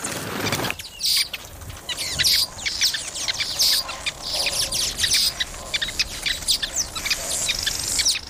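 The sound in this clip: Many male weaverbirds call around their nests in a dense, continuous chorus of high, overlapping chirps and tweets, busy and fairly loud throughout, with no voices.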